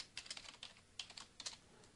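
Typing on a computer keyboard while entering database details: quiet, crisp key clicks come in quick irregular bursts, with many taps and short pauses between the groups.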